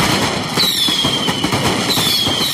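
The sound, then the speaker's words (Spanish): A fireworks barrage at a town festival in Almoines, held for a local devotional feast day, makes a dense, loud, unbroken roar of rapid bangs and crackling, with sharp bursts packed closely together throughout. “Así sonaba hace unos minutos el bombardeo pirotécnico en Almoines.”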